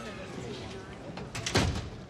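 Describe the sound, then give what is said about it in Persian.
A door is pushed shut, one short dull thud near the end, standing out briefly above a quiet, steady background. “در رو ببند.”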